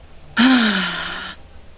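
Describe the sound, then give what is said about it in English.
A single voiced exhale, like a deep sigh, lasts about a second. It starts abruptly, its tone sinks slightly in pitch, and it fades into quiet. “Take a deep breath in. And exhale everything out.”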